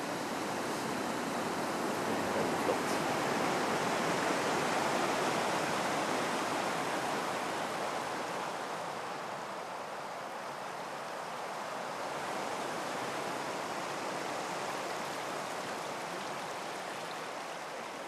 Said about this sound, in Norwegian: Her fosser eh, det ut der hvor smeltevann i sin tid fra innlandsbreen kom ut.